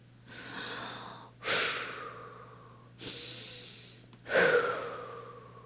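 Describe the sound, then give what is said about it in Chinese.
Slow, deep breathing as a child follows a father's lead, long drawn-in breaths and lengthy breathy exhales in an even rhythm, four distinct breath surges, soft and alone. “我也跟着爸爸深深的吸，长长的呼。”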